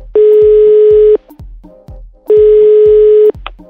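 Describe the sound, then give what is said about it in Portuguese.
Ringback tone as a phone call is placed: two loud, steady tones lasting about a second each, separated by a short gap filled with softer low thumps and background sound. “Tá, então vamos ligar agora para Isabela.”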